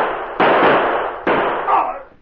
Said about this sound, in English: the men with him fired point blank at the guard.